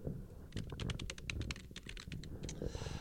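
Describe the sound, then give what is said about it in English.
Typing on a computer keyboard: many quick, quiet key clicks in an uneven run over a low background rumble. “my typing”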